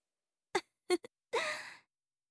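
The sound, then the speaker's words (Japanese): Someone sniffs deeply with the nose fully covered: three short, sharp sniffs, then one longer, forceful inhalation, breathy and alone against silence. “鼻を全部覆って、そんな思いっきり吸うなんて。”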